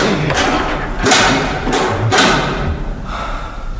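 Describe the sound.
Heavy thuds of a bolted door being banged with its handle: a few loud, dull knocks spaced unevenly over a steady background noise.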